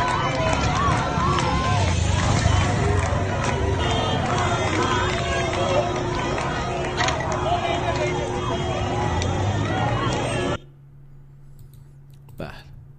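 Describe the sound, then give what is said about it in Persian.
A dense crowd in a Tehran metro station, at a protest with slogans being chanted, makes loud, continuous noise with many voices and movement for about ten seconds, then cuts abruptly to a much quieter background. “شهرک اکباتان بلوک بی 4 ساعت 19 جمعیت با شعار مرگ بر خامنه ای اومدن متروی تهران.”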